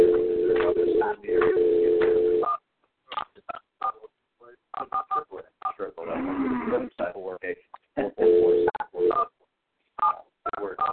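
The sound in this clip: A telephone is being dialed: a sustained, steady tone plays first, then comes a long run of many short keypad beeps in quick, uneven bursts, with brief gaps between them.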